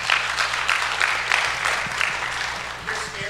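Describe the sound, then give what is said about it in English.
A church audience claps for a volunteer called up front, a moderate stretch of applause with a loosely rhythmic pulse of hand claps that carries on steadily to the end. “Come and give her a hand, everybody.”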